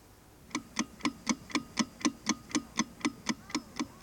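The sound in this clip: Steady clock ticking: fifteen even, crisp ticks at about four per second, alone with no voices.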